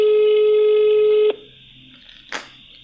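A telephone ringback tone on an unanswered call: a single steady mid-pitched tone holds for over a second, then cuts off, followed by quiet and one brief noise.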